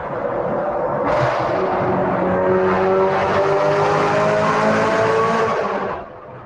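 Engine of a car with a dual-clutch transmission and hydraulic steering, driving hard: a loud, continuous roar whose tones climb gradually over several seconds, then drop to a quieter level near the end.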